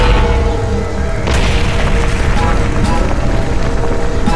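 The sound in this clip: Cannon fire in a dramatized battle: a loud, dense roaring rumble that surges sharply after a moment and stays heavy throughout, with a few sharper cracks breaking through.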